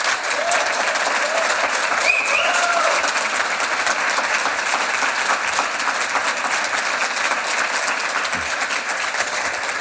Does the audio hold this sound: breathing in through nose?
no

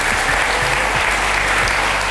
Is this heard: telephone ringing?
no

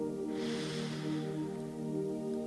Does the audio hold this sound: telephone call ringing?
no

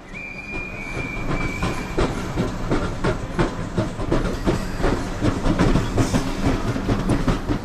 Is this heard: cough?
no

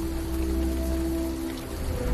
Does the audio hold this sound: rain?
yes

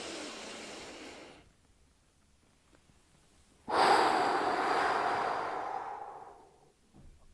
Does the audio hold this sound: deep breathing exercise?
yes

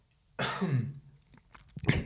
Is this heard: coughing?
yes

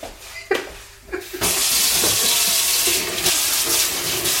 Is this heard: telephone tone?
no

